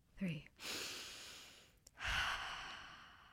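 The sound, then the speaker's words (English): A group takes a deep breath together: a long, quiet inhale is followed by a short pause and then an equally long, sighing exhale. “Let's take a collective breath.”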